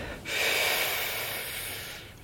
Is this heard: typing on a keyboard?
no